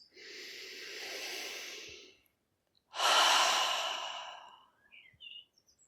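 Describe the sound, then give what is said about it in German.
Slow breathing in and out during a guided relaxation exercise. Two long, airy breaths with a pause between them: the first is softer and drawn out, the second louder and stronger before it fades. “Noch einmal einatmen und ausatmen.”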